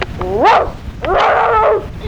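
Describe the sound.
A dog gives two loud, drawn-out whining yelps, the first sweeping up and then down in pitch, the second longer and wavering, with no voices over them.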